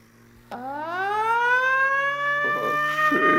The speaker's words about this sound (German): Stell doch noch einmal die Sirene an, mein Junge.